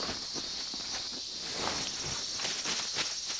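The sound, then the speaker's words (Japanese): Cicadas singing in a steady, high, buzzing drone that holds unbroken throughout, with faint rustling underneath and no talk. “セミの声しか聞こえへん。”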